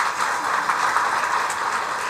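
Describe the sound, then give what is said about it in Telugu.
Audience clapping during a spiritual talk, a dense, steady wash of many hands that stays even in loudness throughout. “మీరు అలా ఉంటాము అనుకుంటే చప్పట్లు కొట్టుకోండి,”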